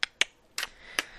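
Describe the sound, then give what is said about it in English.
Four crisp finger snaps, made as finger guns, arrive in a loose, uneven rhythm with a longer gap between the second and third, each one sharp and bright against near silence. “That's the sound of finger guns.”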